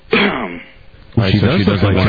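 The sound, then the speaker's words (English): Deliberate coughing or throat clearing comes as two voiced, harsh bursts, a short one and then a longer, louder one, in a conversational exchange. “Cough once if she looks like Terry Hatcher. Cough twice if she doesn't look like Terry Hatcher.”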